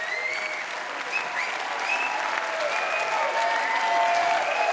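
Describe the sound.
Audience applause and cheering for a band taking a bow after its last encore at a festival concert in a winery courtyard in Krems. Dense, sustained clapping with shouts and high whistles swells slightly toward the end.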